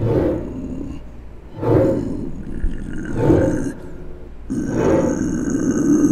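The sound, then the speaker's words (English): Deep, raspy roaring and growling of a werewolf from a video installation, rising and falling in a few loud, swelling bursts with rough, throaty texture and a continuous low rumble between them. “But first, werewolves.”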